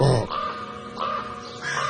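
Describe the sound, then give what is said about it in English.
A crow caws three times in harsh, raspy calls, evenly spaced and loud, with nothing else heard. “Crow, a crow, crow. An awful lot of bird names are onomatopoeic.”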